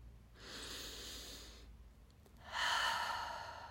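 A slow, deep breath taken during a calming breathing exercise: a long, soft inhalation, a brief pause, then a fuller and louder exhalation, quiet and alone with no talk.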